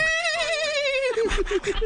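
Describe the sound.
A voice imitates Donald Duck riding a horse, first with a quavering, nasal, duck-like squawk that sinks slightly in pitch, then with a quick run of short, rhythmic, bouncing pulses.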